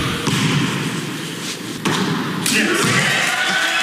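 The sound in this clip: A basketball free throw, the millionth shot of an 82-year-old man's 17-year goal of a million free throws, comes through as a few hard, dull thuds of the ball against a noisy background.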